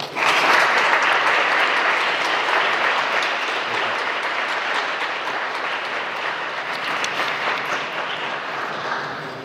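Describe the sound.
Audience applause welcoming a professor to the lectern at an academic talk: dense, sustained clapping that holds steady throughout and eases only slightly toward the end.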